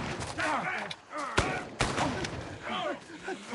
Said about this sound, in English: Down! Return fire!